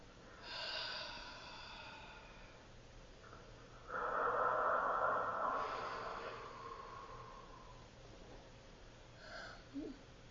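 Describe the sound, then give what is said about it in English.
Deep breathing, a couple of slow, airy breaths drawn and released at a low level, the second one longer and stronger, with no talk over them. “Let's take two nice deep breaths, please.”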